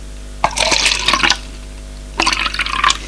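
Liquid pours from a bottle just opened in a dining room, in two splashing, hissing bursts separated by a short pause.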